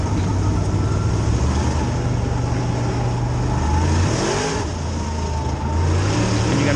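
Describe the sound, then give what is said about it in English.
A manual-transmission car accelerating under clutch and throttle, its loud engine drone holding steady, then climbing in pitch, dipping briefly at a gear change and climbing again, continuous and without talk. “You give it gas and the clutch. You're rolling, keeping the clutch down. Now he's gonna boom. Now he just shifted.”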